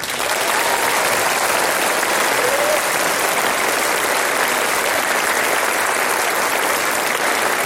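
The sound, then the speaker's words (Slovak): Audience applause fills the whole stretch, a loud, dense and even roar of many hands clapping together without a break or any voice rising above it. “Tento potlesk, ktorý teraz zaznie, poputuje všetkým našim divákom v školách na celom Slovensku.”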